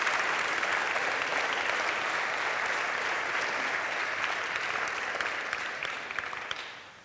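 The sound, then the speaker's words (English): A church audience applauds to welcome a new organist and choir accompanist, a steady, dense clapping that holds for several seconds before tapering off at the end. “Would you give him a hand of welcome?”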